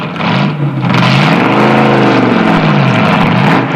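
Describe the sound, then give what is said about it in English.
A hot rod car engine rumbles and revs as it backs out of a garage, a deep, loud continuous note that climbs, falls away, and swells again before settling. “backs his hot rod out of a garage”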